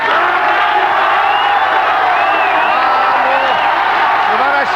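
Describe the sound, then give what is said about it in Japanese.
Audience cheering at a pop group's farewell concert as the band and singers take the stage: a loud, continuous roar of crowd voices with high whoops and shouts rising out of it. “今日キャンディーズと一緒に生でもう素晴らしい演奏をしてくる MNP に盛大な拍手を。”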